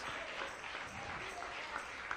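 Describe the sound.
A church audience claps in a continuous, moderately soft patter of many hands that holds steady from start to finish.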